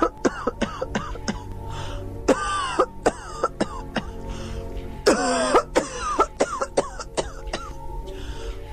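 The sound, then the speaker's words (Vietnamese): An old woman is seized by a violent coughing fit: many harsh, rasping coughs in rapid, uneven bursts with some throat clearing, continuing throughout and heard on their own. “Bà Sang bỗng lên cơn ho dữ dội”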